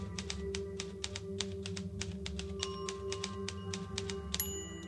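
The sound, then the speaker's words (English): Many crisp keyboard clicks come in a steady, fairly even rhythm over a low continuous hum, with no voices. “Type something. Well, you were paying for this stuff. I can type 50 words a minute with only 300 errors.”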